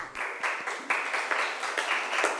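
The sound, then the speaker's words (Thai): Students in a class clapping for a classmate after a correct answer: a short burst of uneven hand claps with ragged onsets, fairly faint and with no voices. “ถูกต้องค่ะปรบมือให้เพื่อนหน่อยค่ะ”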